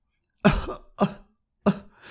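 Harsh coughing from a mouse character who nearly drowned in a pool and is bringing up water: three separate loud, rough coughs, each trailing off before the next, with no talk around them.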